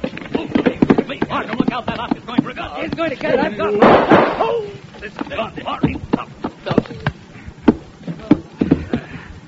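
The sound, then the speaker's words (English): A single loud gunshot bursts out midway through a tense confrontation, and people talk before and after it. “I'm sorry I had to shoot that Oscar, but it was neither him or me, and I'm selfish that way.”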